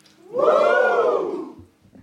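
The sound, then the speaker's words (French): About twenty audience members at a public recording shout together in one sustained, loud collective cry. The cry swells quickly, holds for about a second with a slight arch in pitch, then fades into near quiet. “Pas mal pas mal du tout. Super cri.”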